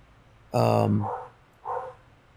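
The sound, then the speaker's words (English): A dog gives one loud, drawn-out bark with strong ringing overtones, followed by a couple of softer, shorter sounds. “a dog barking”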